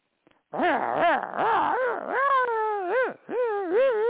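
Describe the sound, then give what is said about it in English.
A dog vocalizes in a long run of loud, wavering whines and howl-like yowls. Each call swoops up and down in pitch in a sing-song pattern, almost like talking. The calls continue for several seconds with no speech. “What is that? That's my dog telling you I didn't do it.”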